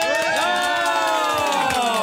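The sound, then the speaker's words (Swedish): Canned crowd sound effect played from a studio applause button, a lively burst of cheering and high whooping voices with scattered claps, loud and continuous throughout. “Alltså, det är någonting med applådknappen. Ja. Den strejkar. Jag provar en gång till.”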